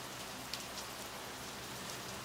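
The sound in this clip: Rain falls outside, a steady soft hiss of dripping and pattering drops that stays even throughout, with no voices.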